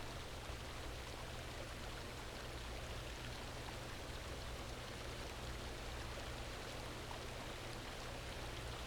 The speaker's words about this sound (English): Allow it to wash over you. A sacred waterfall.